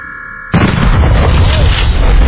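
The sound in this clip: An explosion destroys equipment in a video game: a sudden loud burst cuts off a steady tonal hum and turns into a dense, sustained roaring rumble that stays loud to the end.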